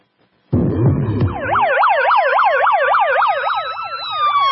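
Police and fire engine sirens blare loudly and continuously, starting with a brief low rumbling burst, then rapid warbling siren tones sweep up and down over steadier high wails.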